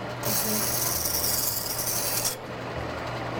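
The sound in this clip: A bench grinder sharpening a blade gives a bright, gritty, hissing rasp for about two seconds and then breaks off. A low motor hum continues steadily underneath.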